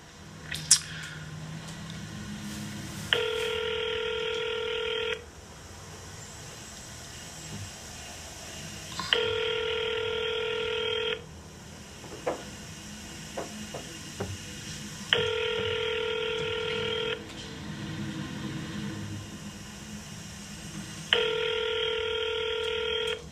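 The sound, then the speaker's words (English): A telephone call being placed: four steady, buzzing tones, each about two seconds long, repeat at even intervals over a quiet line, with a few faint clicks between them. “let's see if we get Mr. Greenberg on the line.”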